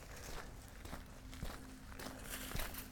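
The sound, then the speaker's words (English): Brisk walking footsteps on a flat road in the Chattahoochee National Forest near Toccoa, Georgia. A few soft, evenly spaced steps fall in a steady rhythm, faint against quiet outdoor background. “We're just going to do some pretty brisk walking so I can get my body temperature up.”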